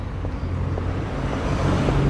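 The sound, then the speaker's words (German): A car passing outside on the street, heard as a loud, steady low rumble that swells slightly toward the end, with no voices. “Wieder ein Auto.”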